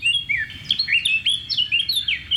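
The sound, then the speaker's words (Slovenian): A common linnet sings a rapid run of high, twittering chirps and short trills. The song is fairly loud and continuous, with no voices. “Repaljščica.”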